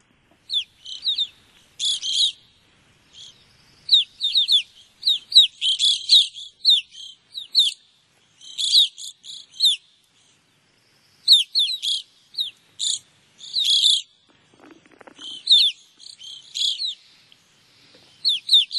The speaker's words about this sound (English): I do have some audio of an evening grosbeak, so let's take a listen to that.